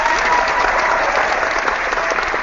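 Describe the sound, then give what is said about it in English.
A crowd's applause, dense and steady, holding at an even loud level for the whole stretch. “You get applause for that,”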